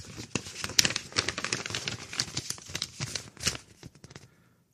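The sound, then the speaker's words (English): A check is torn open by hand, producing a long, crackly run of many small paper rips and crinkles at varying loudness. The sound thins out and ends abruptly in silence. “Slight tearing of the check. And then we read what's inside.”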